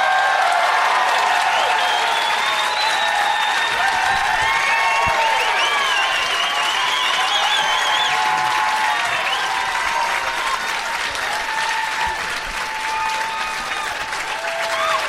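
Sustained, dense applause from a live audience in Portland welcoming three guests onto a stage, loud and steady for the whole stretch without letting up.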